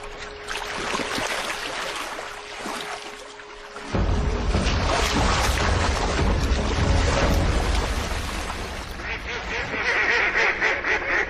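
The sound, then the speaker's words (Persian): Mallard-like ducks quacking amid a dense, noisy wash that grows louder and fuller after the first few seconds and stays steady to the end. “اردک های مرغابی شکل. اما آیا اون میتونه برای جهش به اندازه کافی نزدیک بشه؟”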